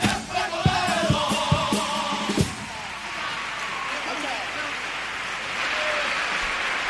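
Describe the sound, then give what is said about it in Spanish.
Clapping and crowd noise rise from an audience standing to applaud a carnival singing group, with a few sharp thumps early on and a loud, steady wash of applause that carries on to the end. “está de pie aplaudiendo con brazos en alto, agradeciéndole a la agrupación”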